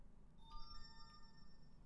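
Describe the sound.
A phone-style notification chime rings out as a few short, bright tones over low background hum, then fades into quiet.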